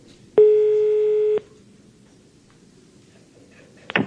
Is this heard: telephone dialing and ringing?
yes